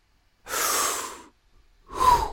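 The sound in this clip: A deep breath taken in silence: two breathy rushes of air, a long, steady one followed after a short pause by a shorter, stronger one. They are fairly soft, and no one talks.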